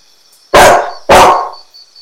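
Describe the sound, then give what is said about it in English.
A dog barks twice, two sharp, loud barks about half a second apart, followed by a faint, brief yip. A thin steady high tone lingers faintly in the background. “Anjing. Anjing. Dog. Dog. Kalbun. Kalbun.”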